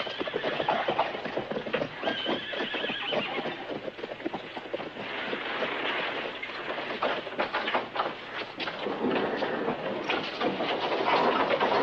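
A horse-drawn cart rolls along with a steady clip-clop of hooves over a continuous rumbling of wheels, dense and unbroken throughout.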